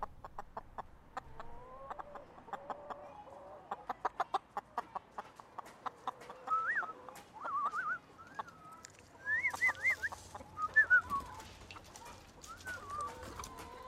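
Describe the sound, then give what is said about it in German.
Chickens and other birds cluck in quick, rhythmic bursts while a person whistles to them with rising and falling tones, all fairly quiet. “Hey Birds. Hey Hühner. Jetzt quäle ich sie, weil ich pfeife, aber es kein Futter gibt.”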